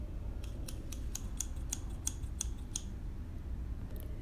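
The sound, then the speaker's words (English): Scissors snip through a piece of cloth being cut for an apron, giving many quick, crisp, evenly spaced clicks in a steady rhythm, then a pause and one last snip. “Aunt Elizabeth started measuring and cutting a piece of cloth to make an apron for Jack.”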